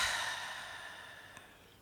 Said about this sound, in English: One more deep breath in through the nose and out through the mouth.